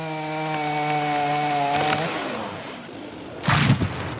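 A chainsaw cuts branches from an oak tree donated for Notre Dame, its engine holding a steady buzzing whine for about two seconds before cutting off, followed by a short loud crashing burst.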